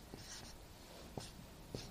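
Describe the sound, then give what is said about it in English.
A pen writes on paper, three faint, short scratching strokes spread across a quiet background. “Should I write down on this or? So I'm going to just write.”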